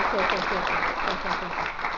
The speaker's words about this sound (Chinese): 让我们再次用热烈的掌声欢迎李老师。